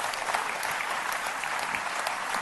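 Applause from a crowd, a dense, steady wash of many hands clapping at an even level throughout, fairly faint, with no voices standing out.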